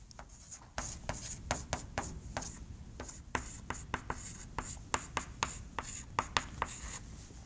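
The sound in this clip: Handwriting of a maths equation: many quick, scratchy strokes in an irregular, busy rhythm, faint and with no talk over them.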